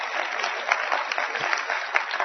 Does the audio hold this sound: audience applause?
yes